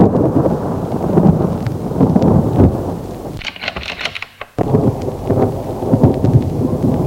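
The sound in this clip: Thunderstorm with heavy rain and loud, rolling thunder. The continuous low rumble and dense rain hiss briefly thin to a lighter high hiss midway before the full roar returns.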